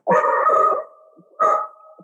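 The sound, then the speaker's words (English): A dog howls and barks, wanting to go outside: two loud, drawn-out howling cries with short yips, separated by a brief quieter pause. “And I think my dog wants outside.”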